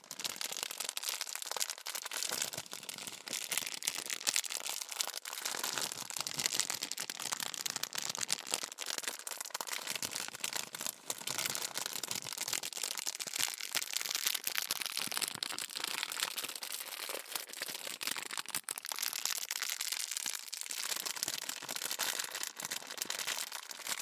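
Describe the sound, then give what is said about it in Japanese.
A plastic bag package is unsealed, producing wrapper crinkling: a dense, continuous rustle and crackle that lasts throughout with no talk. “開封するときもね、いい感じで、うまく開けられるかちょっと心配だったんですけど、いい音だよ。”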